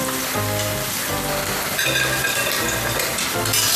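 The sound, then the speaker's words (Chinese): Starch-coated food sizzles and rustles as it is tossed in a wok during its first fry, shaking off excess starch. The crackle is steady and dense, broken by repeated stirring scrapes. “你看它听着沙沙的响声就证明第一遍已经完成了然后呢也能把多余的淀粉给它抖出来”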